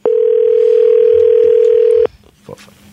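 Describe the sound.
A ringback tone on an outgoing telephone call: one loud, steady two-second buzz that cuts off abruptly, followed by faint clicks and rustling.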